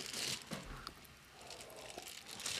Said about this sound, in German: während ich das hier auspacke und schneide